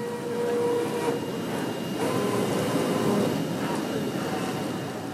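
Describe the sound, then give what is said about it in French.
Steady, loud mechanical rumble from a large industrial machine darting back and forth to pre-cut big cardboard sheets for packaging. The dense noise runs without a break and carries faint humming tones. “Derrière Julien, une grande machine s'active dans tous les sens pour prédécouper de grandes plaques de carton”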